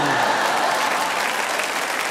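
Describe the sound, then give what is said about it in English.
Women in an audience cheer and applaud, a dense, steady wash of clapping that stays loud and even throughout. “Ladies, you're cheering a little too much, but here we go.”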